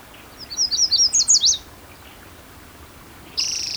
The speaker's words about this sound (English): yellow warbler singing